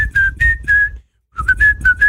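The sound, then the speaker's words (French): Human whistling by mouth, loud and clear: a quick run of short, steady high notes, a brief silence, then another run of similar notes, with no talk. “C'est la façon dont tu mets la bouche qui marche mieux, en fait. Siffler.”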